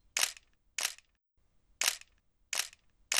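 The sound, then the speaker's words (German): Camera shutter clicks as photo after photo is taken at the Great Wall of China, a few crisp mechanical snaps at uneven intervals, heard alone without voices. “Miss Pippin schoss ein Foto nach dem anderen”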